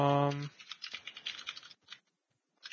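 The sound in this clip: Brief typing on a computer keyboard to write a comment: light, irregular clicks follow a voice that cuts off at the start, then stop into near silence with one faint tap at the end.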